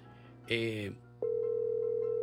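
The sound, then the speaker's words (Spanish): A telephone tone after a call is cut off: a brief, harsher burst, then a steady, unbroken tone that runs on alone to the end. “Se cortó la llamada.”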